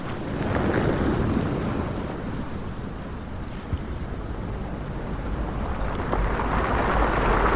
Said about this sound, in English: The wave coming up.